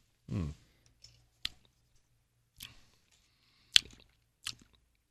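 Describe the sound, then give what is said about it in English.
A small sip of a drink, a quiet slurp at the start followed by a few sharp, soft mouth clicks and lip smacks spaced through otherwise near silence, with no talking. “let me take one more little sip here.”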